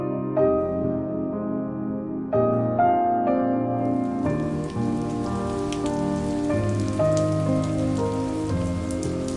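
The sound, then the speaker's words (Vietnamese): Early-season rain starts to fall. A broad, steady hiss of rain on surfaces enters about midway and continues to the end over a constant bed of soft melodic music. “Cơn mưa đầu mùa bất chợt ào đến, ban đầu chỉ vài giọt mưa thưa thớt”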